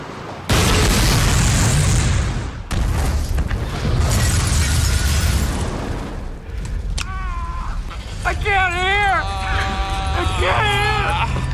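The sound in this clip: A loud explosion in a film scene bursts in suddenly as a deep, roaring boom that rumbles on for several seconds. Voices then speak over the fading debris noise.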